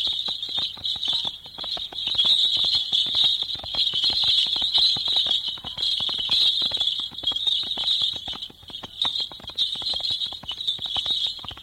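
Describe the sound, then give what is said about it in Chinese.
Brass bells jingle continuously on a horse-drawn carriage as its wheels roll along. A dense stream of rapid clattering runs beneath the bright, steady ringing, sustained and fairly loud. “车轮又咕噜噜咕噜噜地转动起来，系在马车上的铜铃叮当作响。”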